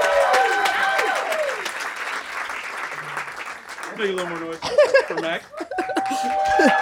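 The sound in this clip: An audience at a live music event claps. Voices shout and whoop over the applause, and the noise swells and dips throughout.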